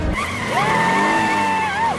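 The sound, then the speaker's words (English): A car whirls off at speed in a cartoon getaway: a sustained, piercing tonal whine rises early, holds steady at a high pitch over a rough engine rumble, then dips briefly near the end. “The inmates whirl off in Serena's car while she and Jim sit tied to a tree.”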